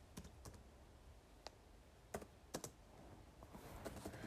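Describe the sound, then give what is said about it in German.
Faint typing on a laptop keyboard: a few sparse, sharp key clicks at irregular intervals, with no talk. “Ja, Leute, ich bin echt gerade so inkompetent, bei meinem Laptop zu schreiben.”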